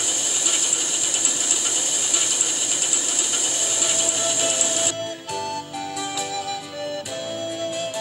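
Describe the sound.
A spinning machine twists dyed wool into yarn, a loud, steady mechanical whirring and clatter that shifts partway through into a sparser, uneven rattle with a humming tone underneath.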